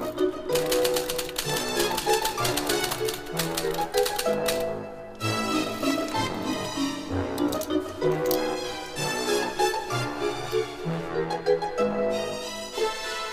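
Rapid typing on a typewriter, many crisp clacking keystrokes in quick uneven bursts with a brief pause partway through, loud and alone.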